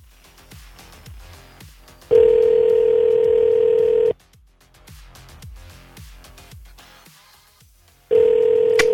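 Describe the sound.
A telephone ringback tone sounds while a call is being placed: two long, steady, single-pitched beeps separated by a few seconds of faint background noise, the second cut off at the end.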